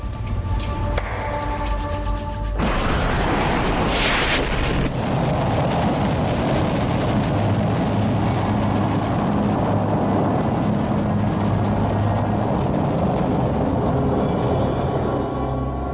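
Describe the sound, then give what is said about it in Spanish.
A rocket launch test for Sputnik, the sixth and final launch trial of Korolev's program, roars as a loud, continuous rumbling blast of noise that holds steady across the whole stretch. “La carrera de Korolev y su sueño de conquistar el espacio dependen de esta sexta y última prueba de lanzamiento.”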